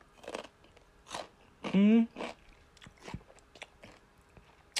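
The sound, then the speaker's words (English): Crunchy biting and chewing on a pickle from a sandwich, with several separate crisp crunches spaced apart and a short voiced hum in between, all fairly quiet. “whoever prepared my sandwich, y'all, when I tell you, I'm gonna eat the pickle.”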